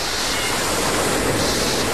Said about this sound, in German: Die Wellen werden größer, ne?